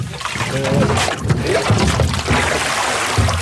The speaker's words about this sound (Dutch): Worden hier de kratten gewassen?